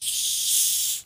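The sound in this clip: Fizzing hiss of a Coca-Cola being opened: a steady, bright carbonated hiss lasting about a second before quickly tapering off.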